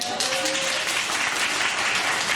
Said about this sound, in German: Mal Applaus.